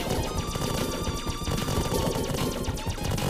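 Rapid gunfire from a video game shooter in which the player fires red bullets: a loud, dense, unbroken rattle of shots runs through the whole clip over steady ringing tones.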